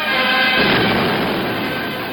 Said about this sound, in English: The USS Savannah sustains a direct hit from a bomb.